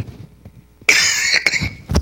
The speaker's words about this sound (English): Oh, you turned it down while I was coughing.